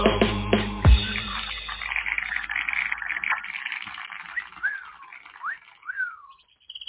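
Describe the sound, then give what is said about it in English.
Birds chirping outside, heard as a few short, sweeping whistled calls in the second half, after an opening jumble of louder noise and a low thump. “I like that. I like the birds. See, and they answered outside. Like, oh, there's birds in there.”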